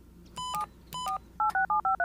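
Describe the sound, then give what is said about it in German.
A mobile phone number is dialed on the keypad: a quick run of electronic touch-tone beeps, with two longer tones first, then five short, evenly spaced ones. “Wartet, ich rufe ihn sofort auf seinem Handy an.”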